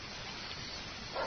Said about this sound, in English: It seems that my boy found this beagle. Thought it might be yours. I thought I'd lost that chow hound. Show him the dog